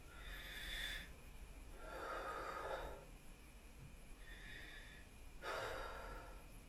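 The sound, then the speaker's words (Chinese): Quiet, airy breaths in an abdominal breathing demonstration for singing, with four slow breath sounds, each lasting about a second, spaced evenly with soft hiss between. “你在吸气中呢，你可以看到我们的肚皮慢慢吸气胀起来，呼气瘪下去。”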